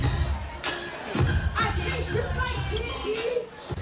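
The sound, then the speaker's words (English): A concert audience reacting to a rapper performing off beat: a restless crowd murmur with scattered shouts and raised voices, a steady mass of overlapping talk. “And you can start to hear the audience start to be like, this is some bullshit.”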